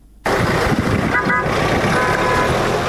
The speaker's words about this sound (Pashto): دغه راپور یې جوړ کړی او د یو موټر په اران پیلېږي